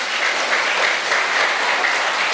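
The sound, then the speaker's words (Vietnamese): An audience of children at a Buddhist retreat breaks into loud, continuous applause, a dense, even wash of many hands clapping at once that holds steady throughout without pauses. “Nếu đồng ý cho một tràng pháo tay thật lớn.”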